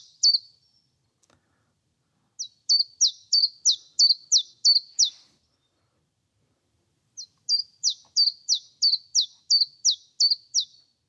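A songbird calls in high, sharp notes, alternating two quick syllables. After a single opening note come two bursts of rapid zip-zip notes separated by a pause, with no other sound around them.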